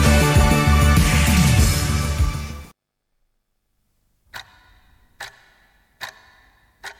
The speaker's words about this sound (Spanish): Tic tac, tic tac.